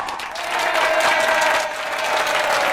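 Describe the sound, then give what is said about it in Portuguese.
An audience at a live show applauds. The loud, dense clapping swells quickly and then holds steady to the end with no pause. “Palmas pra vocês.”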